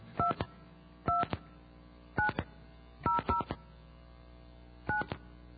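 Touch-tone telephone dialing heard through a phone handset: several short dual-pitch beeps in irregular groups, fairly faint, with no talk.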